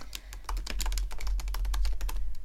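Keyboard typing as someone writes a note about PTA housekeeping: a dense, steady run of many quick keystrokes with no pauses, fairly loud over a low background hum.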